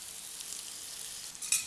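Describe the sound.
Bitter melon stir-frying in hot oil with garlic gives a quiet, steady sizzling hiss with no talk, swelling into a brief sharper crackle just before the end.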